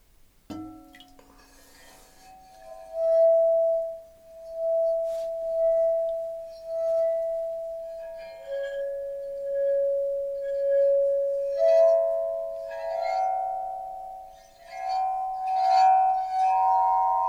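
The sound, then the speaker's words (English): A small, dense gabbro stone is struck and gives off high, glassy clinks. The long, ringing tones sustain and overlap across several strikes, with the pitch shifting higher later on. “the smaller you go, the higher the sounds get normally. Smaller in the sense? A small stone has also very high sounds, you know. Like I can show you.”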